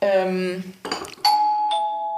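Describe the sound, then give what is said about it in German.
A doorbell sounds a two-tone chime, a higher note followed by a slightly lower one that rings on, right after a voice talks briefly. “Ich glaube, es hat gerade geklingelt. Es hat gerade geklingelt, echt?”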